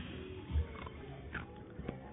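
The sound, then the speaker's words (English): Ice crunched between the teeth right at a microphone: a few brief, crackly bites over a faint, muffled background. “Crunching ice into the mic.”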